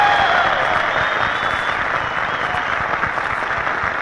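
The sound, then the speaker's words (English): Applause from a large evening show audience, welcoming hundreds of hostesses: a steady, even stretch of many hands clapping at a constant level with no letup. “Let's give them a big hand. Yes, let's give them a big hand.”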